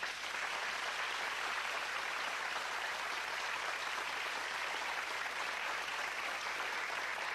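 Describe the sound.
Studio audience applause welcomes talk show guests, a steady, continuous wash of clapping that stays even and fairly quiet throughout without breaks.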